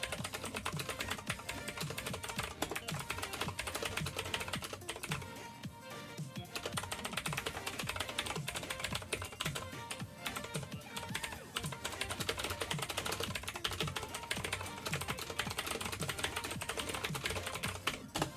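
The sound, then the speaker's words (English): Rapid keystrokes clatter on a computer keyboard in a dense, continuous stream of fast clicks, broken by brief pauses, at a fairly faint level. “Just doing a bit of typing there”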